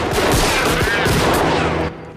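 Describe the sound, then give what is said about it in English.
Gunfire from a gang shooting at makeshift armor out in the bush: a loud, rapid, sustained volley of overlapping shots that stops abruptly near the end, leaving a quieter tail. “Out in the bush, the gang fire at makeshift armor.”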